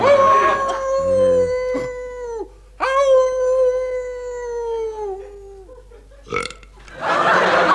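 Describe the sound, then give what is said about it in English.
Howling of the hound of the Baskervilles: two long, wavering, low-pitched howls, each sustained for a couple of seconds with a rough, burp-like tone, followed by a short yelp and a burst of noise. “Can't you hear the curse of our family? The hound of the Baskervilles.”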